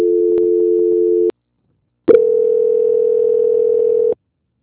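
Telephone tones during a call transfer: a steady, buzzing tone lasting over a second, a short silence, then a second steady tone of about two seconds, loud and alone.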